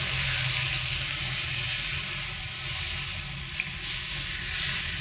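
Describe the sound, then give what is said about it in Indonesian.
Coconut milk poured into a cooking pan makes a soft, steady liquid hiss with faint sizzling. It runs quietly and evenly, with only a couple of small splashes. “Oke, masukkan santannya.”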